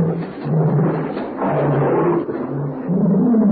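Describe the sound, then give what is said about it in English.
A pet tiger roars in deep, rumbling growls that swell and fade a few times in an almost unbroken, throaty run. The growls are loud and heard alone, with no voices. “strange sound. I wonder what it is. I don't know. It seems to be an animal of some kind. Never heard anything like it before. That's my pet tiger.”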